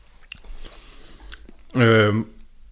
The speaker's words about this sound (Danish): Undskyld til lytterne, for jeg sidder og spiser gouda.